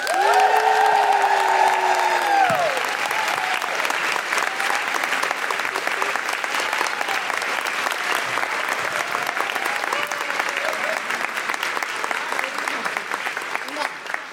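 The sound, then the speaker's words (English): A live show audience applauds and cheers as two guests are welcomed. Dense, loud clapping runs throughout, and high woo-hooing whoops rise over it in the first couple of seconds before the steady roar of applause carries on. “Please put your hands together and make wonderful Guilty Feminist woo-hooing noises for Amy LeMay and Alicia Whitmire.”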